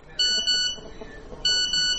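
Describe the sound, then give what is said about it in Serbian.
A phone text message alert tone at early morning: two bright electronic beep bursts, each made of two short harmonic tones, separated by a pause over a faint background. “Budi me poruka.”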